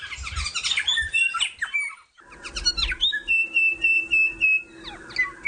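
A young songbird about 13 to 14 weeks old practises its species song in a run of varied high whistles and chirps, some sliding quickly in pitch, with one long steady whistled note partway through.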